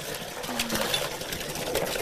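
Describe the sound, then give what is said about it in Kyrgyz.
Hand water pump being worked to draw yellowish drinking water, giving a continuous rhythmic mechanical clatter with a watery hiss, fairly quiet and steady throughout. “Мынакей ушундай качайт этип ичебиз сууну. Мурун арыктан колдончубуз да, азыр ушул качалка менен колдонобуз.”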